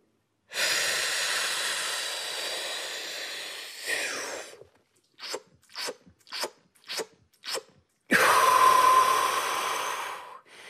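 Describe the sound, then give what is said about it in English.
A trained freediver's packing breath, filling the lungs past a normal breath: one long, steady hissing inhale, then five short gulping sips of air, and finally another loud, sustained rush of breath, with no talking. “And that's called packing. And that is something that only experienced freedivers should be doing, because there are some inherent risks associated with it.”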